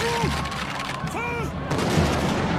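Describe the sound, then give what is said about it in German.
Gunfire from the storming of the Bastille in 1789 cracks in volleys, a dense fusillade of shots mixed with raised, shouting voices throughout. “Er lässt auf die Angreifer schießen, 89 Tote.”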